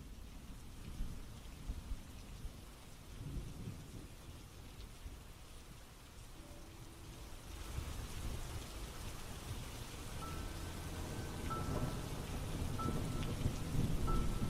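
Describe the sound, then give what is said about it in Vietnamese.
Heavy rain with thunder in a sudden downpour: a dense, steady hiss of rainfall with deep rolling rumbles underneath, the storm growing slightly louder toward the end. “Đi được một lúc, trời đột nhiên ầm ầm đổ mưa.”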